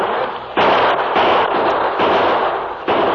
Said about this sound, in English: Keep the bullets flying, men.